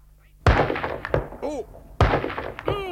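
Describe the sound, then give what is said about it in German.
Two loud, sharp heavy-rifle shots in a German Wild West radio drama, each hitting with a booming crack, with voices speaking briefly after each blast. “Unglaublich. Das Greenhorn schießt mit dem schweren Gewehr, als ob... Na, das war wohl nur ein Zufall. Wieder ins Schwarze.”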